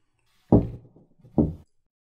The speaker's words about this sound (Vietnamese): Sau 2 tiếng gõ nhẹ lên cửa